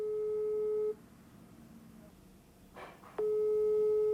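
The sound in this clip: An outgoing telephone call gives its ringback tone: a steady mid-pitched beep sounds for about a second. After roughly two seconds of quiet, the same long tone returns and runs to the end.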